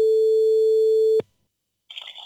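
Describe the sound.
A steady telephone line tone sounds while a call is placed to a guest. It holds one unchanging pitch for just over a second, then cuts off abruptly into silence, and a short burst of another higher sound follows at the end.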